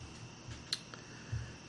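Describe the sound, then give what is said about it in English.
Soft computer mouse clicks as someone clicks over to a web page, a few faint, isolated ticks against a quiet background. “Let me see if I can click over to it.”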